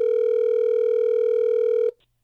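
A telephone line rings as a call is placed: one loud, steady buzzing tone held unbroken for about two seconds, then cut off abruptly into near silence.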